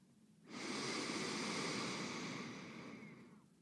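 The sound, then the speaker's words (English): One long, slow breath during a guided meditation: a soft, airy rush that swells quickly, then fades gradually over about three seconds, with no talk. “And breathe in. And let it out. Breathe in.”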